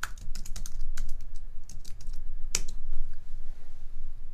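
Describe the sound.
Someone types a search into a computer keyboard, producing a steady stream of many quick, light key clicks with a few louder taps.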